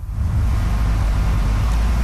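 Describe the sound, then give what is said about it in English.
Steady, loud low engine rumble as the wreck of a 1985 Burgundy Firebird is towed onto a Windsor high school's front lawn, a continuous drone with no clear breaks. “At a Windsor high school, the wreck of a 1985 Burgundy Firebird is towed onto the front lawn.”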